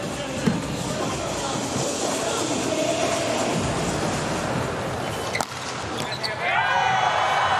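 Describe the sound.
A volleyball serve scores an ace during a match between Italy and the United States: sharp ball smacks over a steady roaring crowd, with commentary voices throughout.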